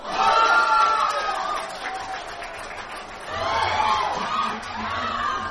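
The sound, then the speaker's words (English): Crowd in a Taipei sports bar cheering as Jeremy Lin hits a game-winning three-pointer for the New York Knicks. Loud shouts and cheers from many voices burst at the start, ease off, then swell again before settling into excited chatter. “On a recent day, people at a Taipei sports bar cheered as they watched Jeremy Lin make a three-point shot.”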